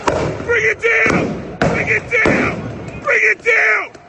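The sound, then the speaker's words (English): Flashbang grenades go off as a few loud, sharp bangs mixed with voices, the blasts cutting in abruptly between stretches of talk. “These are flashbangs. These are flashbangs. They're deploying fire.”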